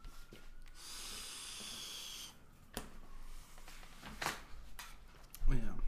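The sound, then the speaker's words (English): A person breathing heavily to catch their breath, with a faint, long hissing exhale followed by several shorter, uneven breaths and snorts. “I gotta breathe a little bit.”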